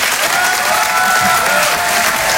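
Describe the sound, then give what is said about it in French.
Audience applause, an ovation at a live comedy show: dense, loud, steady clapping that continues evenly from start to end with no voices on top. “Je vous demande de l'encourager très chaleureusement, de faire une ovation, s'il vous plaît, à Karine Dubernet.”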